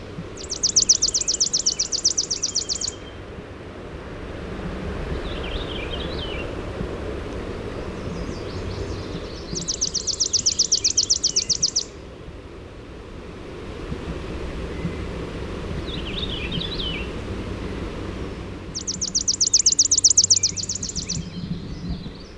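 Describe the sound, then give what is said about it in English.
A Baltimore Oriole sings three bright bursts of song at regular intervals, with fainter chatter between them, over a steady low rush of wind or surf. “Baltimore Oriole.”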